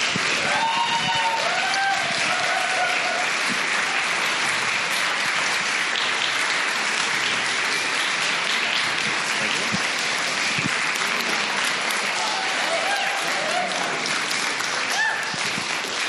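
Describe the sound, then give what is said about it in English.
An audience at a storytelling event applauds, a dense, steady wash of clapping with some cheering that holds at full strength throughout. “All right, so please put your hands together for Matthias Leonard.”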